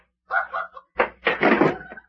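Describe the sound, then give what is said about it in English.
A door is tried and then opened: a few short knocks and rattles, then a sharper clunk and a longer, moderately loud rattling scrape. “Hey, what's wrong with this door here? It opens the other way.”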